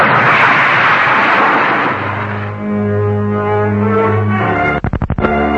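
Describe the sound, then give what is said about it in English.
A dramatized explosion of a great jagged streak of fire: a loud, broad roaring rush that fades into a low droning hum, followed near the end by a few rapid, stuttering pulses. “a great jagged streak of fire, exploded and disappeared.”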